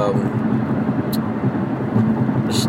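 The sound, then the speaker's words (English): Road noise from a car driving on the 405 freeway at 8 p.m. with light traffic. A continuous low rumble and hiss holds steady throughout, marked by a couple of brief, higher hissing swells. “oh man, so beautiful freeway right now. I'm on the 405.”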